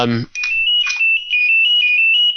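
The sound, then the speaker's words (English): A mobile phone ringtone plays, a loud, bright, high-pitched electronic melody of quick repeated notes held steadily throughout, after a brief moment of voice at the very start. “We've really learned the scope of Joe Abercrombie's ringtone during the course of this podcast.”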